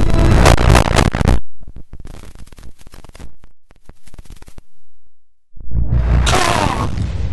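Tank cannons fire during a battle against enemy tanks. Two heavy roaring blasts open and close the stretch, with sharp crackling and scattered bangs between them.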